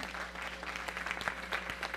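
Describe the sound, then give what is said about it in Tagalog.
A church audience applauds in praise of God with dense, steady clapping made of many sharp overlapping hand claps at an even level and no voices. “Palakpakan natin Panginoon doon.”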